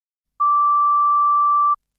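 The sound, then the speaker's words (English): A voicemail tone sounds before a caller records a message: one steady, clean mid-pitched beep lasting a little over a second, alone with silence before and after. “Please leave your name, number and message after the tone.”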